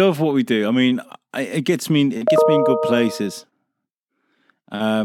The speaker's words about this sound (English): I think somebody just, I forgot to close my messenger window, and that was the sound of someone sending me a message.